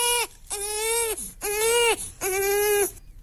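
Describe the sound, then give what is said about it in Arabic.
An infant cries in a run of sustained, high-pitched wails broken by short pauses. The cries are strong and alone, with no other voices. “الصوت ده معناه البيبي عايز ايه بالظبط؟”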